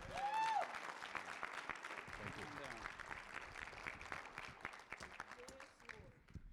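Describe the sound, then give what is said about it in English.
Warm applause from a church audience welcoming a guest speaker: dense, sustained clapping at a steady level, with a brief raised voice near the start, easing off toward the end. “I want, to, want you to go ahead and give a warm welcome to Oscar Gonzalez, please.”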